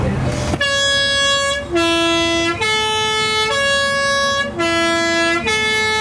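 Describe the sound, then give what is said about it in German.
A postal bus's posthorn sounds a loud, bright three-tone call, then repeats it: six sustained notes that alternate between a middle, a low and a higher pitch, each held for about a second with brief gaps between them. “Umso schöner, dass er das Posthorn heute mal nach Lust und Laune brauchen darf. So, lassen wir es einmal sauten.”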